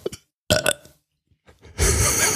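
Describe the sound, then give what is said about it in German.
A loud, drawn-out burp made on command, low and raspy, swelling suddenly and sustained to the end after a few shorter, quieter bursts of sound. “Auf Kommando kann ich rülpsen”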